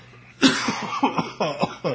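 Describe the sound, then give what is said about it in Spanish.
A person coughing: a string of several rough, abrupt coughs with short gaps between them, loud and clear with no talk over them. “Se me quita la tos, un momento.”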